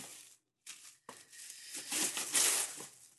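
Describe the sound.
Wrapping paper tears and crinkles as a birthday gift holding a Lego set is opened, in a few separate bursts that grow louder and busier toward the end.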